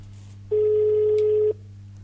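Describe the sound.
A telephone rings as a call comes back in: one steady electronic tone lasting about a second, over a constant low hum.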